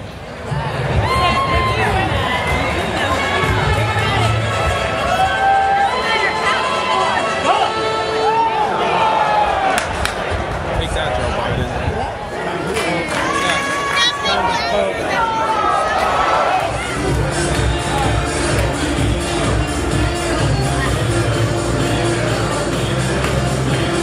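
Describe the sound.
A baseball game crowd gives off a dense, continuous murmur of chatter and cheering, loud throughout, with voices talking over it.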